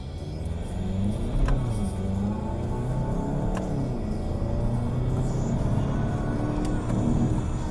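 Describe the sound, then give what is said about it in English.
A car's DSG gearbox shifts through the gears: a steady engine roar whose note climbs and drops a few times as the gears change. No voices. “I'm going to slip it into DSG mode and shift the gears because it's a lot of fun.”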